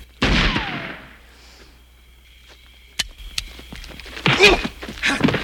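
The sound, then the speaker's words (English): Gunshots in a film scene, a blind man firing in random directions: a few sharp, loud bangs spread out with quiet pauses between them. “And he starts shooting in random directions. Right, wherever they put the thing.”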